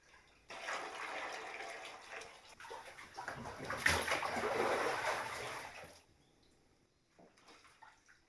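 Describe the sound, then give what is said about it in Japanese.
Hot bath water poured over the body before bathing, a steady splashing, rushing pour that runs for several seconds, swells briefly, then stops, leaving faint quieter drips and rustles. “しっかりかけ湯をしますね。”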